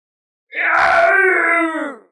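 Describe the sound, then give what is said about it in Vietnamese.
A single drawn-out roaring howl like a wild beast, loud and harmonic. It rises sharply, holds for about a second and a half, then tails off, with no other sounds around it. “Đúng lúc đó, một tiếng gào thét như tiếng dã thú vang lên.”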